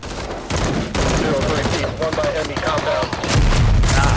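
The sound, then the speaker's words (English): Dense gunfire in a firefight after a Humvee convoy is ambushed by IEDs in a Middle East setting: rapid overlapping shots and automatic bursts, loud and continuous, with a deeper rumble joining near the end. “So now they're just in a firefight, just shooting, being shot at. There's like other people shooting at them.”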